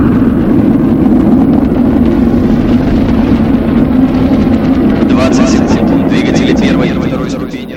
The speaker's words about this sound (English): The new satellite, Pars-1, aboard a Soyuz launch vehicle, was blasted off from a Russian space station and successfully put into orbit 500 kilometers above Earth.